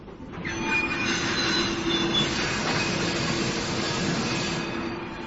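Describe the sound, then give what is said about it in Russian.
Brakes screech on a train carriage as it lurches: a loud, continuous metallic grinding roar with thin high squealing tones running through it, holding steady for several seconds. “Вдруг вагон качнуло. Тошнотворно заскрежетали тормоза.”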